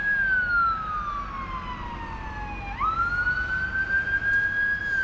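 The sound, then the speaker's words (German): An ambulance siren at a marina sounds one long wail whose pitch slides steadily down, then jumps back up and climbs slowly, with a constant low background rumble. “Und das, was ihr im Hintergrund gehört habt, war ein Krankenwagen.”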